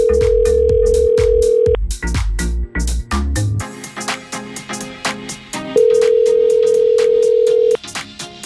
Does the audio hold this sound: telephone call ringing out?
yes

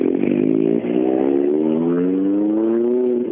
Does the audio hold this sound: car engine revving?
yes

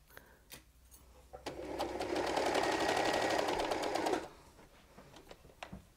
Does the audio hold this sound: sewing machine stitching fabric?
yes

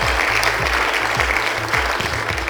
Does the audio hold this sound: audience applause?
yes

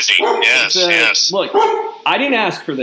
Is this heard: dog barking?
yes

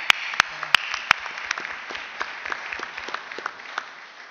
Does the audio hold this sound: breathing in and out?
no

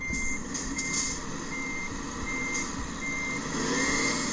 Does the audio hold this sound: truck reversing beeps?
yes

